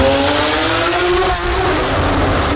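A Novitec-tuned Lamborghini Aventador SVJ engine is revved in an underground garage. It is a loud, sustained, harsh roar with a steady tone, dipping briefly midway before surging back.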